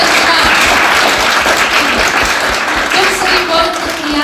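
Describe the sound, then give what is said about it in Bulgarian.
Loud, dense applause from a crowd at a public event, greeting a deputy director of a city municipality. Sustained, thick clapping fills the whole stretch, with a voice emerging over it near the end. “специални аплодисменти”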